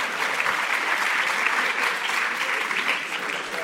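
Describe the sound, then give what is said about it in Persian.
An audience applauds a first-place win in a competition. Steady, continuous clapping holds at an even level from start to finish. “خب بله اول شدیم دست بزنیم.”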